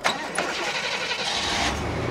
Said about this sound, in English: takes me for a ride in his rust-covered truck.